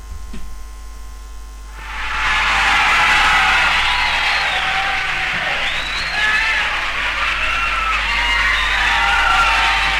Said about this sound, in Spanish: se ve el directo, la gente gritando